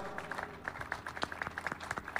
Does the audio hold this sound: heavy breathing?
no